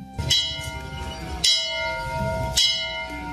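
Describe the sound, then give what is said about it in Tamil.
A temple bell rings with three strikes at fairly even intervals. Each strike is a bright metallic clang that leaves a sustained, shimmering ring carrying into the next. “அது கோயில் மணி கூட அடிக்குது, நல்ல சகுனம் தான்.”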